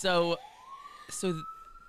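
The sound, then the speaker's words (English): Emergency vehicle siren: a single clear wailing tone rises smoothly in pitch and then holds steady, heard beneath a person talking. “And there's a siren now coming to get me for telling the story.”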